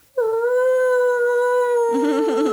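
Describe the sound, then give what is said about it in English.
A puppy howling in imitation of a passing fire truck siren: one long, loud, sustained howl at a steady pitch that turns wavering and warbling toward the end. “when they go by, one of the puppies has like will mimic the fire truck sound, and he'll go like,”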